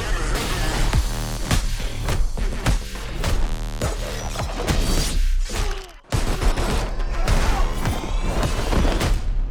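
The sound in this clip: Gunfire from the Fast X film trailer: loud, dense bursts of many rapid shots mixed with heavy booms, crashes and thuds, sustained almost throughout with a brief sharp drop near the end.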